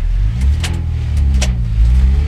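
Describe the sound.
A car engine pulls away in a loud, continuous low rumble whose pitch wavers as it drives off, with a few faint clicks above it.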